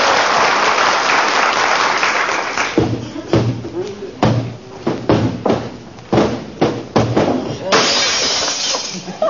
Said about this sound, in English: I was just cleaning the mirror in the hall, kiddo. Slipped out of my hand.